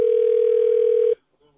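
A telephone ringing tone while a call connects to a bank: one long, steady, mid-pitched beep holds for about a second, then cuts off abruptly into near silence.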